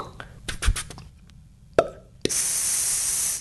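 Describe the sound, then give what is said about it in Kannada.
A soda bottle is opened at a shop: a few sharp clicks and a low plop, then a loud, steady fizzing hiss that lasts about a second. “ಒಂದು ಅಂಗಡಿಗೆ ಹೋಗಿ ಒಂದು ಬಾಟಲಿ soda ತೆಗೆದು ಕುಡಿಯೋಣ ಎಂದರೆ ಅದರ ಶಬ್ದವು”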